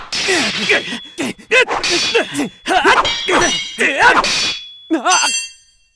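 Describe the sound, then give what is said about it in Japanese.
A ringing metallic clang as a sword is knocked from a hand during a duel in a staging of Hamlet, coming after a stretch of talking and trailing off with a bright, sustained ring. “わが剣がおっと落とされたか”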